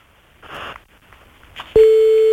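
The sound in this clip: A telephone ringing tone on an outgoing call: after a moment of faint rustling, a single steady mid-pitched tone starts and holds to the end.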